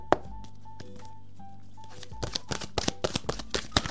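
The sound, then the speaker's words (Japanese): A deck of oracle cards is shuffled until one card falls out. Soft rustling gives way to a busier run of crisp taps and flicks toward the end, with a faint steady tone underneath. “はい、あ、落ちてきた。 You are not afraid のカードが出てきました。”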